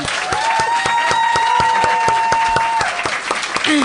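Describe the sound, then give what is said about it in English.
Audience applause for a comedian at the end of a stand-up set: dense, steady clapping from a crowd that holds at a loud, even level for the whole stretch. “And how about a hand for Laura House?”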